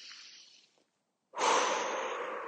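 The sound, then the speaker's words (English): A deep breath taken while standing among trees, with a faint breath first, a brief silence, then one loud, airy, sustained breath lasting over a second. “So close your eyes and just take a deep breath.”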